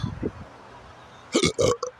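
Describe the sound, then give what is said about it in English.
A person burps repeatedly. Faint low croaks come first, then a few loud, rough burps in quick succession near the end. “Burping like crazy.”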